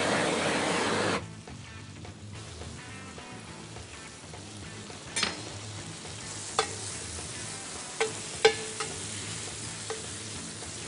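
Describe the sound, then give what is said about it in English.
Sizzling stir fry, with pepper among the ingredients, being stirred in a hot pan: a steady hiss that is louder for the first second, then settles, with a few sharp scraping clicks scattered through. “Stir, that's why they call it stir fry.”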